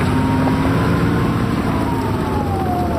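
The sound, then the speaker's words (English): Steady, loud engine drone of a SUSV tracked amphibious vehicle driving across tundra, with a thin whining tone running through the continuous rumble for the whole stretch and no talk. “Specialist David Nanning of Bethel says it's his job to pick them up in a specialized vehicle called a SUSV.”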